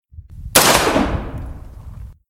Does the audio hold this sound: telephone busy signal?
no

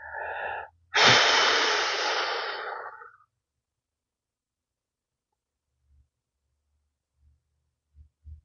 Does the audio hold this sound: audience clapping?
no

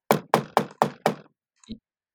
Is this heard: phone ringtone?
no

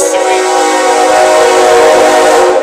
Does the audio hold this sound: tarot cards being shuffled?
no

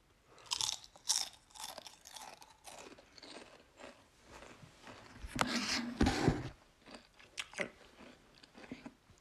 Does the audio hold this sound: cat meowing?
no

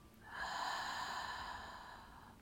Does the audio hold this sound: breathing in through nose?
yes

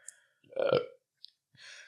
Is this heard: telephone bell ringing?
no

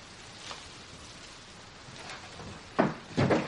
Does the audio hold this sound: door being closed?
yes

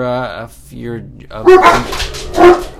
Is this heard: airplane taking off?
no

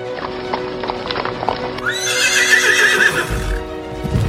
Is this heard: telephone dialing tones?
no

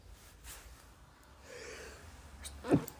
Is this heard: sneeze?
yes

